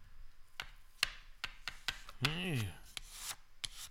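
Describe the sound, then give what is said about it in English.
A card chops cocaine on a hard surface, making a series of sharp, dry taps and short scrapes in an uneven rhythm. A brief voice sounds midway through. “so let's get out the old wallet here and get the card out. Let me put the microphone. I can hear this nice and well. All right, here we go. A little chopped.”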